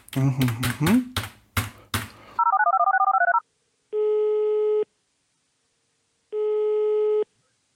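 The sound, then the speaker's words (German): Outgoing telephone call ringing: brief talk and noisy bursts, then a short warbling tone, followed by two long, even ring tones separated by a pause. “Dann rufen wir den mal an.”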